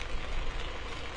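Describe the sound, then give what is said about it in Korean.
Steady heavy rain falling in the Gyeongnam region of South Korea, a dense, even hiss that runs unbroken and level from start to end with no other distinct sounds. “어젯밤부터 약한 빗줄기가 내리기 시작해 지금은 제법 강한 빗방울이 꾸준히 떨어지고 있습니다.”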